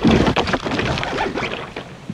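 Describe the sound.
A rowboat being pushed off from the shore, heard as a dense, rough scraping and grinding rustle that is loudest at the start and then continues steadily. No talk.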